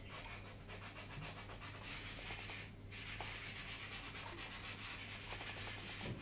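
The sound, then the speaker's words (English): A rubber eraser rubs out writing on paper, giving a faint, steady, scratchy friction that continues without a break throughout. “Can I rub this out? Well, it's a good rubber, this,”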